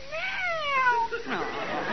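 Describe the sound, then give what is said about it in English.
Cat meowing twice: a long first meow that rises and then slides down in pitch, followed closely by a shorter, lower second cry, both clear and fairly loud. “Ah, pretty cat. Ah, pretty cat.”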